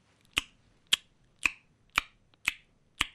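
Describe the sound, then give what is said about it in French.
A person imitates sperm whale clicks with six sharp, dry clicks spaced evenly about half a second apart. Each click is crisp and brief against near silence. “alors je vais essayer de vous faire, de faire quelques sons qui sont un peu similaires à un animal, donc un cachalot.”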